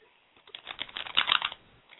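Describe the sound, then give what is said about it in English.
Mother Peace Tarot cards being shuffled, a short, faint burst of rapid papery clicks that thickens briefly and then stops. “I'm shuffling the Mother Peace Tarot cards right now, and let's just see what comes out for you, okay?”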